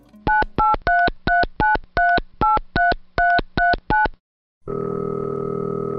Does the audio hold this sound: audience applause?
no